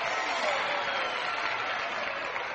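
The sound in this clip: Warm audience applause greets a guest on a Grand Ole Opry country music show, a dense, even clatter of many hands clapping that holds steady from start to finish.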